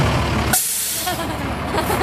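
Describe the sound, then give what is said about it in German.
Air brakes hiss loudly on a bright red fire engine as it arrives, a sharp burst of release in the first half second, then the truck's engine keeps rumbling steadily underneath. “Dann biegt das knallrote Feuerwehrauto um die Ecke.”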